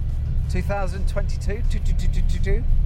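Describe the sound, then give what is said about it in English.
A car drives along a road through Barnsley. The engine and road noise make a constant low rumble, and someone talks over it. “And I'm just driving through Barnsley.”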